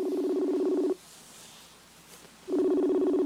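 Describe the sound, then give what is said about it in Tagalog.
Telephone tones as a call is being placed: two long, steady, loud mid-pitched tone bursts separated by a quiet gap of about a second and a half, with no voices. “Dali ang tawagan ko lang.”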